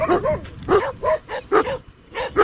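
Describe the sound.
Dogs barking at a garbage dump: several short, loud barks and yelps come in an irregular rhythm, with quieter noise in the gaps between them.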